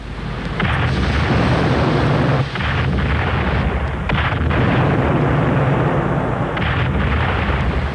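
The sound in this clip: A ship's cannons fire in a dense, continuous, loud roar of booms and blasts that stays heavy throughout, with a few brief dips and no talking.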